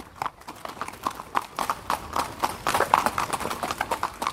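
Clip-clopping hooves of a horse being ridden by a jockey at a racing stable, many quick, evenly spaced clops in a steady rhythm, fairly soft and alone.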